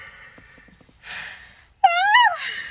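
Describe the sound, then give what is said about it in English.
A person yawns with a breathy intake, then gives a loud voiced yawn that wavers up and then falls in pitch. Quieter breathy noise comes before it. “I apologize. That was a yawn, by the way.”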